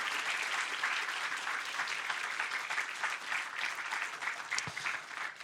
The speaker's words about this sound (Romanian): haideți să aplaudăm cu toții deodată și să zicem lăudat să fie Domnul!